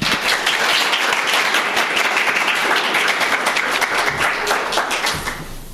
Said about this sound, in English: Please join me in a warm welcome for Carl Alexander.